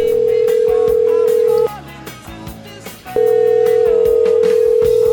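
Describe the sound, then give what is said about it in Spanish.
Telephone dial tone heard before a call is placed: a loud, steady tone that cuts out briefly in the middle, leaving a gap of softer mixed sound, then resumes unbroken to the end. “Tono, ya tenemos tono. Vamos a la llamada”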